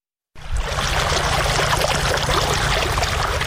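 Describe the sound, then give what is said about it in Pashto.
Well water rushes out as farmers in Sayedabad district, Maidan Wardak province, raise it from deep wells with machines. A loud, continuous broad pouring starts abruptly after a moment of silence and holds steady throughout. “دا د میدان وردګو ولایت په سید آباد ولسوالۍ کې د جوړو څاګانو اوبو دي چې بزګران یې د مریضې هندارو او ماشینونو په مرسته راپورته کوي.”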